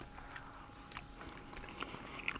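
Faint biting and chewing on a cake that has set firm. Soft crunchy bites and moist chewing recur quietly, with no talk.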